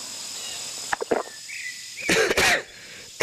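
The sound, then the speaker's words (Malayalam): A man coughs in a few harsh, breathy bursts, then a longer, louder coughing fit after a short pause, with one more rough burst at the very end. “ചുമ വല്ലാതെ വീണ്ടും തുടങ്ങിയല്ലോ sir.”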